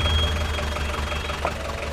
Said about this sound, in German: Isn't that the taxi driver from Niederangebach? Hey, he's got a new car.